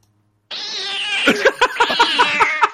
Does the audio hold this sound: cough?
no

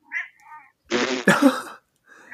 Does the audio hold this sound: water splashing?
no

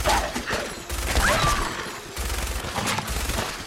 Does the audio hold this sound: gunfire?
yes

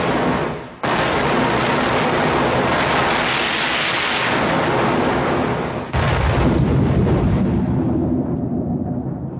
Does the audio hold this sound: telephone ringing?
no

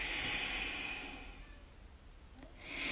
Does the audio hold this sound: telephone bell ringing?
no

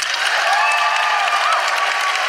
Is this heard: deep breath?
no

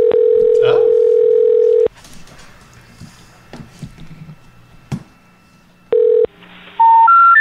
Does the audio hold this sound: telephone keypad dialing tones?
yes

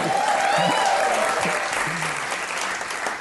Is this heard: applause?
yes

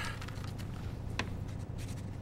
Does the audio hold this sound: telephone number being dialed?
no

